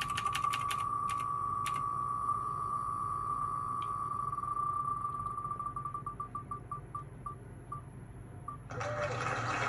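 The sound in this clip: An online prize wheel spins for a knife giveaway, giving rapid clicking ticks that slow down and spread apart over a steady tone. A brief burst of sound follows at the end.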